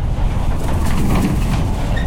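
A freight train running on its route from Basel to Hamburg gives a loud, steady rumble with a continuous rattling rolling texture throughout.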